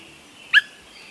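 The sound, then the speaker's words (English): A Swainson's thrush gives a single short whit call in a woodland nesting area, a brief, clear, liquid note standing alone against a faint steady background. “When Swainson's thrushes first returned to nest in the woods of the West, or the northern states in Canada, they announced their presence with subtle calls. Limpid whit or wink sounds.”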